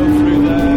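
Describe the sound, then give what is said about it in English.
Le Mans 24 Hours race cars, three Peugeots followed by an Audi, go by in a brief, steady, low engine drone with a strong hum and no clear rise or fall. “There go the three Peugeots, followed by one of the Audis.”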